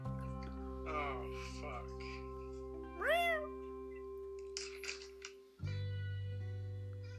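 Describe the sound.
A male cat meows once, a short cry that rises and then falls in pitch, over steady background tones while people talk.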